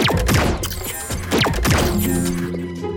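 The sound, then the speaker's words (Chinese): A vehicle's mechanism switches into climbing mode with a run of sweeping, falling whooshes mixed with mechanical clanks and thumps, settling into a steady sustained tone at the end. “好的，启动登山模式。”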